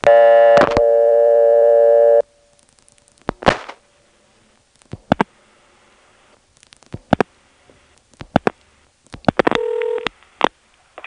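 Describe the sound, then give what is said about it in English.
Telephone dialing of 82411 for directory assistance from Belhaven, Carolina telephone style: a loud steady dial tone, then several separate clusters of sharp dialing clicks with quiet gaps between them, ending with a brief tone and a final click. “let's move on to the way of calling directory assistance from Belhaven, which is to dial in that Carolina telephone style, 82411.”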